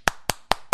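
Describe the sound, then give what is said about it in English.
Four sharp, evenly spaced claps made by one flat hand striking the palm of the other, an uneven clap with crisp, fairly loud smacks about a fifth of a second apart. “Instead of the finger to finger, lining them up like you're praying, one hand will hit the palm of the other hand.”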